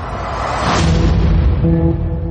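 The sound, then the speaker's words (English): A heavy explosion from an action film trailer about a terrorist bombing in a city: a deep, loud rumbling blast swells into a bright burst, then sustained musical tones ring out over the fading roar. “An explosion rocks the city today.”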